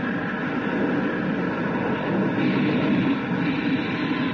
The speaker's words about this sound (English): I am about to open the retrojets for the touchdown.